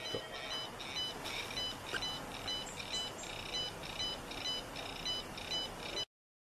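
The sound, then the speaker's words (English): A home telephone rings faintly, a high electronic trill repeating in short rhythmic bursts throughout, under a steady background hiss. “to my home phone. You can hear it ringing in the background”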